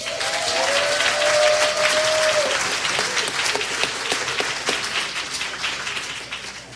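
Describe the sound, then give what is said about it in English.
Audience applause at a live weekend event: dense, steady clapping that holds loud for several seconds, then thins and fades slightly toward the end. “Everybody, give it up for David Edick.”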